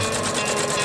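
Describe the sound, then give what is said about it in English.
A sewing machine stitches socks in an Australian factory: a dense, steady mechanical whirr and clatter with no pause or voices across the brief moment. “Socks being stitched.”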